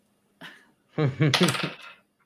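Dice rolled from a dice tray during a tabletop role-playing game clatter against a hard surface: one brief knock, then a dense burst of rattling bounces lasting about a second that quickly fades.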